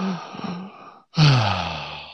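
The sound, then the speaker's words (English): A slow, calming breath out, voiced like a sigh: a shorter exhale, a brief pause, then a longer, louder breathy sigh that trails away. “So if you concentrate on your breathing, let's say you're starting to get angry, and you just go,”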